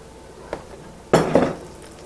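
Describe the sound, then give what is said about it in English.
A spoon stirs extra virgin olive oil and Smart Balance spread in a pan, giving one faint tap and then two louder metallic clinks and scrapes in close succession. No voices are heard. “I'm taking my spoon that I've been using to stir all this up with, and I'm just gonna stir this, these oil and olive oil in smart balance.”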